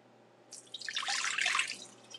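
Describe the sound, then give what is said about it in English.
Pure, clean water dripping and trickling: a faint, bubbly patter of light drops that gathers into a brief burst of splashing and then fades. “Hear that? That's the sound of pure, clean water.”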